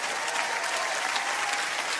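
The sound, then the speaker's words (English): Applause from many hands, a dense and even patter of claps that stays at a constant moderate level without pauses. “You know why I'm clapping? I'm excited to meet the me God sees.”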